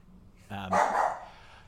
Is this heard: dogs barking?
yes